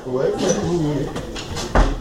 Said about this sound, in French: Je peux fermer la porte ?